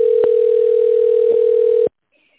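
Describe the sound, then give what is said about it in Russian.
Telephone ringback tone while a call connects to an operator: one steady, single-pitched tone held for about two seconds, then cut off into silence. “Для соединения с оператором оставайтесь на линии. Выполняется соединение с оператором.”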